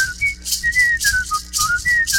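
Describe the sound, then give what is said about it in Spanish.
Human whistling carries a clear melodic tune, its bright notes sliding up and down in pitch in short, connected phrases, loud and alone with no voices. “los Guinness Records, para silbar 4 horas sin descansar, porque yo demoro 6”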